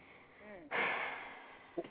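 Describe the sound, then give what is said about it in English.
A woman takes a sudden, deep breath: a loud, airy inhale that starts abruptly after faint talk and lasts about a second, then a brief short sound follows. “Uh-oh, she took a deep-ass breath.”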